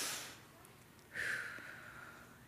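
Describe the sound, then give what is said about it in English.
An audience breathing out together during a guided breath at a church talk, a soft, airy rush that swells suddenly partway through and slowly fades, faint and without talk. “How many of you felt the breath go in and the breath go out?”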